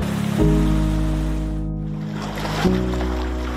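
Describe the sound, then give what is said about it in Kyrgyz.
Water of the Aksu river rushes steadily near an irrigation headworks, a continuous broad hiss with a low droning hum running underneath throughout. “Азыр мына оң жак жактагы суу бул Аксуу дарыясы.”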